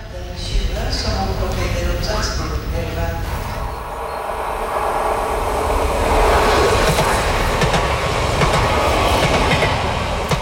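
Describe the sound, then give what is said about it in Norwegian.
A train runs along a Norwegian mainline railway: a loud, steady rumble with rhythmic clickety-clack of the wheels, swelling slightly partway through and continuing to the end. “Det var lyden av tog”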